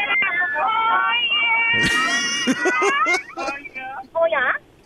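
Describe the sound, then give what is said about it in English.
Cat-like meowing in a voicemail message, like a moving car full of cats: several wavering, high cries overlap and slide in pitch, then break into shorter yowls before cutting off. “At the start of that, it sounded like a moving car full of cats, I thought, at the start of that message.”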